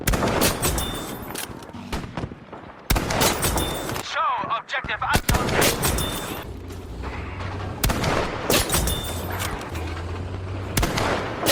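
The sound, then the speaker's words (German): A video game's headshot kill sound effect: dense, loud bursts like gunfire that repeat in several sections over about eleven seconds, broken by short gaps, with a brief warbling tone in one gap. “Wenn man es also schafft, einen Gegner mit einem Kopfschuss zu erledigen, dann gibt es dieses eine Geräusch.”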